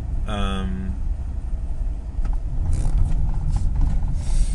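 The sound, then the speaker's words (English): A car drives down a bumpy track, with a steady low road-and-engine rumble and scattered rattles and knocks. A brief voice is heard at the start. “Yeah, but we're off now. I've just automatically decided to drive down the bumpy track that I said that I wasn't going to drive.”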